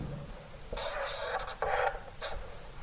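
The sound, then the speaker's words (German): A pen scratches across a board while drawing the tablets of the law, several raspy strokes in short bursts with brief pauses between them. “Da ich beim Predigen immer zittere, kann ich immer ganz schlecht schreiben.”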